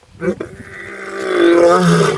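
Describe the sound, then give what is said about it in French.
A voice imitates a lion's roar, for a tale of an ogre turned into a lion that only burps. Two short grunts come first, then a long, loud, growly groan that swells and holds. “un lion qui fait que rôter”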